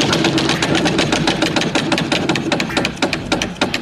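A prize wheel spins with a rapid, steady stream of sharp ratcheting clicks that keep an even, fast rhythm throughout.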